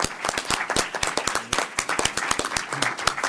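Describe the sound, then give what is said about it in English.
Audience applause thanks a discussion panel: dense, steady clapping from many hands, with sharp individual claps rising out of the wash throughout. “So will you join me in thanking our panelists, please?”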